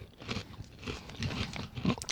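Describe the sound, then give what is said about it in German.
Crunching and chewing of Mi-tsu-ba Thai sweet chili crisps: a few crisp bites followed by soft, moist mouth sounds, quiet and heard alone without talk. “Ich habe jetzt den ersten Chip bewusst erst auf der rechten Seite meines Mundes gegessen und den jetzt auf der linken.”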